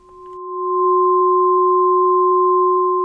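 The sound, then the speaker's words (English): A sonified helium line from a planetary nebula spectrum, a pure electronic tone with a steady, lower companion tone beneath it. It swells in over the first second, then holds loud and unchanging. “there's clearly a bit more to this planetary nebula than just hydrogen and oxygen. We need a few more high-pitched sounds. In this case, helium”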